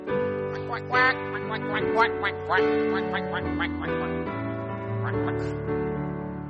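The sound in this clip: Duck quacks, a quick run of nasal bursts followed by another near the end, sounding over sustained musical chords in a children's song.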